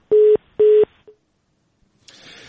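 Telephone tones while dialing to reconnect a dropped call to Osh: two steady, low beeps of equal length, then a brief faint blip, silence, and a rising hiss of line noise.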